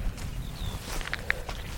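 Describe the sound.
Soft footsteps climbing a heather-clad hillside path on an island, faint steady footfalls under outdoor ambience, with a few brief high-pitched calls chirping over them.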